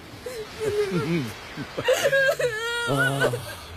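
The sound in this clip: A child crying in soft, wavering whimpers with rising and falling voiced sobs, while another voice speaks.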